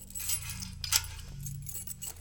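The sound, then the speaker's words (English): Metal shackles on the wrists being unlocked: faint metallic jingling and a few light clinks, one sharper than the rest, over a steady low hum. “Now, can you unshackle me? These bracers are making my hands tingle.”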